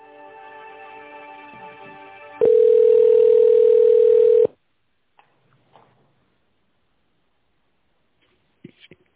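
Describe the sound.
A telephone dial tone sounds while calling a company's accounting department: a loud, steady single-pitched tone lasting about two seconds. It follows a quieter tonal hum and is followed by a few faint clicks, with no talk.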